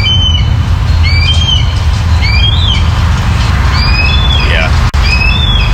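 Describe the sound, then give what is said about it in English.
Red-tailed hawk calls: several short, high, whistled cries repeat over a steady, loud background noise. “Yeah, that's a red tail. Funny, I'm realizing that's a red-tailed hawk call that blue jays imitate a lot.”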